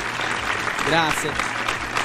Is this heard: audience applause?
yes